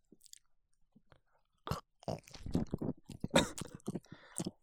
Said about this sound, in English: I'm going to relax you with a bite of this delicious pizza.